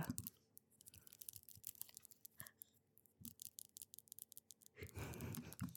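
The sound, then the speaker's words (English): Fake nails click and tap in a quiet ASMR session, making many faint, quick, irregular clicks and scratchy taps, with a rougher, denser burst of tapping near the end. “These fake nails are so good. Click, click, click, click, click. I love that. This is like personal ASMR time just for you.”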